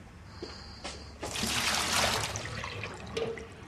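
Water emptied out of a jug: a steady, fairly loud pouring and splashing stream starts about a second in and runs to the end, with a few fainter drips and trickles before it.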